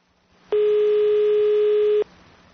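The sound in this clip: A telephone line gives one loud, steady, unbroken beep lasting about a second and a half. It stands alone over faint background hiss, with no talking.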